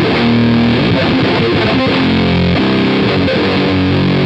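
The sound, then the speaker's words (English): Loud, heavily saturated electric guitar played through a Z-Vex Box of Metal distortion pedal with a noise gate, with thick, buzzing chords changing every second or so over a dense, continuous roar. “I just got this little pretty guy. It's a Z-Vex also. It's a box of metal, and it has a gate on it too. That's pretty crazy sound.”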